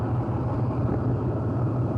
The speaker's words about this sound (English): Operation Pegasus is in its second day, and already Marine tanks and heavy vehicles have begun rolling down Route 9 to Khe Sanh.